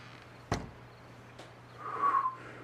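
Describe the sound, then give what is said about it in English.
A person trying to whistle produces a faint, short, breathy whistled tone near the end, after a sharp click earlier on. “He tries to whistle.”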